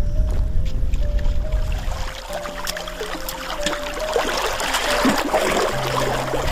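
River water that has risen flows in a steady, broad rushing wash that continues without a break, with a faint low hum running underneath.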